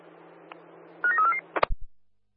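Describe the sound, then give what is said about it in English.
Telephone keypad dialing tones: a short run of quick electronic beeps over a low hum, followed by a few dull clicks and thumps before silence. “Can you give me a call, please? Dialing now.”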